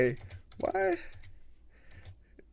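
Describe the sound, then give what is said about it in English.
Typing on a computer keyboard while filling out a ballot: a few light, sharp key clicks, with a person speaking briefly. “why am I typing like this?”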